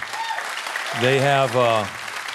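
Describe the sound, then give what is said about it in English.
Applause for a music group fills the whole stretch as a dense, steady wash of clapping, and a voice rises briefly over it in the middle. “So Beausoleil really deserves a big round of your applause and support”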